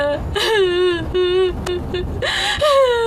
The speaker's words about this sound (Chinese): 再哭也哭不过来啊。啊，别哭了啊。